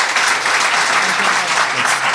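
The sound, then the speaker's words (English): An audience applauds a guest at the close of an interview with dense, even clapping that holds steady throughout. “please join me in giving a round of applause to Ryan Popple.”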